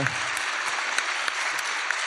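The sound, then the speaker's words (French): Audience applause at a live show recorded in public at a festival: a thick, steady roll of clapping from a crowd, sustained without a break. “Faites un tonnerre d'applaudissements pour Patrick Beau.”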